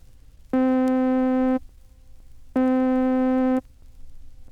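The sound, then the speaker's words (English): Synthesizer middle C tone with rapid growth and rapid decay, sounded twice: each buzzy, harmonic-rich note starts abruptly, holds steady for about a second and stops sharply, with a short silence between. “When growth and decay are both rapid, it sounds like this.”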